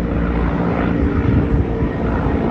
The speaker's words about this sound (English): That's the sound of a helicopter flying over Dhaka, the capital of Bangladesh.